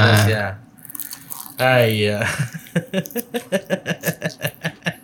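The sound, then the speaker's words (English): Crunchy, juicy food being chewed, its bite likened to fried chicken, during a cooking tasting session: a brief vocal murmur gives way to a long, steady run of crisp, moist crunching bites, each loud and evenly spaced. “it feels too crunchy to be like a KFC. No, that's juiciness also.”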